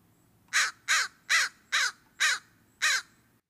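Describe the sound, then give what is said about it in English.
An American crow gives six loud, evenly spaced caws, each a harsh, slightly descending call standing out clearly against a quiet background. “The easiest way to tell apart the two blackbirds is to listen to their calls. Ravens have loud croaking calls, while crows have cawing calls.”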